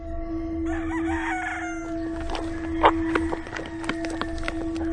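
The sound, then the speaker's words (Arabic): Rooster calls during a cockfight between two roosters in the stable of a caliph's palace, on a floor strewn with dust and straw. Crowing and clucking come with sharp bursts around the middle, over a steady low tone. “كان الديكان يقفزان ويهجم أحدهما على الآخر.”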